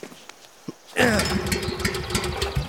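A cleaned petrol generator with a full gas tank starts abruptly after a near-silent moment with a couple of faint ticks. It settles straight into a loud, steady, buzzing engine rumble that keeps running.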